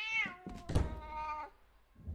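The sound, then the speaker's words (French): A cat meows at a door, first with a short cry and then a long, drawn-out one, rich and tonal. A dull thump lands during the longer meow. “continuait de miauler en grattant”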